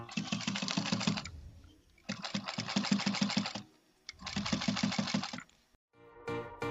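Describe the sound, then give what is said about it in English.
An industrial sewing machine stitching leather in a bag-making workshop. Three runs of rapid, rattling stitching are separated by short pauses, and a brief fourth run starts at the end. “This is the sound of an industrial sewing machine sewing leather at the Better Life Bags workshop”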